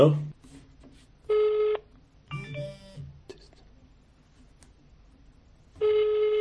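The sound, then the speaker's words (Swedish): Telephone tones as a number is dialed: two steady, buzzy tone bursts about four seconds apart, with brief faint sounds and quiet in between. “Vi kollar upp numret och sen får du ringa han här.”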